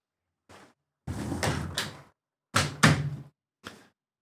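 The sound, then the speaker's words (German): A window being shut: a few hollow thumps and rattling bumps in irregular bursts, fairly loud, with no voices. “Ich muss das Fenster zumachen”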